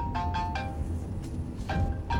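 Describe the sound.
A mobile phone ringtone inside a moving car: two short groups of quick, bright melodic tones, fairly faint, over a steady low rumble.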